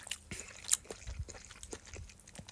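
Someone eats soy sauce-based Morioka ramen, making faint, irregular soft chewing and biting clicks with small crunchy and wet noises and no talking.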